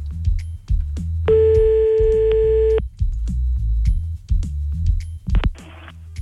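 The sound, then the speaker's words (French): A telephone line tone sounds while a call is being placed back, one steady beep lasting over a second, with scattered clicks and low rumble around it and a short burst of noise near the end. “Bon, on va rappeler du coup.”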